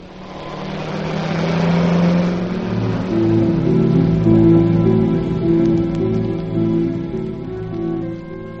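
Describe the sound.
A car engine revs and drives off, a loud, steady mid-pitched drone that builds over the first couple of seconds and holds for several more before easing slightly, with no voices.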